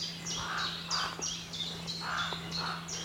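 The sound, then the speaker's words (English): A carrion crow calling raucously on a morning walk in the Brecon Beacons, a series of harsh, rasping caws repeated at fairly even intervals over a steady low hum. “Ooh, raucous. Yeah, carrion crow.”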